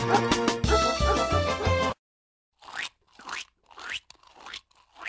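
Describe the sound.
Crunching bites from a dog named Floppy eating an apple: several dry, rough crunches in quick succession, following a short burst of music and a brief silence.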